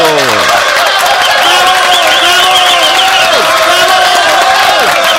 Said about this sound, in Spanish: Fuerte los aplausos para Leonel Ramos.